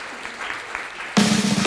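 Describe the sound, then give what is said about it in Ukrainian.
Audience applause at the end of a question-and-answer session at a talk. A quiet opening gives way abruptly to loud, dense clapping from many people, which holds steady to the end. “Друзі, оплески вам за ваші питання.”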